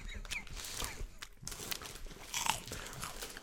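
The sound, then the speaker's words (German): Chewing and biting on two pieces of gum-flavored cable-reel licorice candy at once: a quiet, uneven run of many soft, moist crunches and smacking sounds. “Ja, komm, ich nehme mal eins. Ja, Kaugummi und dann Kabeltrommel. probieren wir mal. Sag ich mal, ich nehme mal zwei, um den Geschmack besser entfalten okay, zu lassen.”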